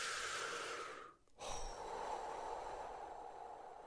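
A long, deep breath, a loud rushing airy sound with a short pause near the middle, as if drawn in and then let out, with no talking.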